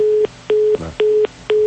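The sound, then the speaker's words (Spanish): Telephone busy tone after a dropped call: four short, steady mid-pitched beeps in an even on-off rhythm, each lasting about a quarter second, with no voices. “se perdió la llamada”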